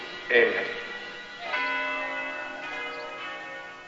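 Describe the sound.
A church bell rings at the end of a film's closing scene, sounding as a sustained strike with layered, humming overtones that slowly fade.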